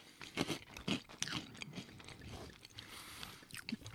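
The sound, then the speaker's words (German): Crunching and chewing of small square snacks, with many irregular crisp bites and grinding chews at varied loudness, no talk. “Bevor das passiert, snacken wir noch mal ein bisschen was rein, damit ihr auch was davon habt. Oh, die sind lecker.”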